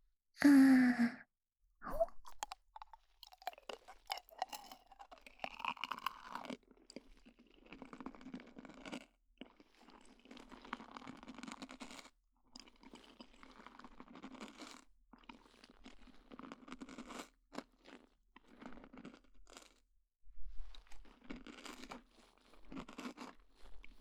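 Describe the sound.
Crunchy kohakuto crystal sugar candy being bitten and chewed: many irregular, crisp crunches and softer chewing sounds follow one another, fairly loud and close, with no talking.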